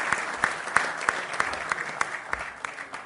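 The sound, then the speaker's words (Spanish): Audience applause at a gathering: a run of crisp, evenly spaced claps in a steady rhythm, fairly faint, each strike sharp and distinct over a light background hiss. “Aplauso, bien.”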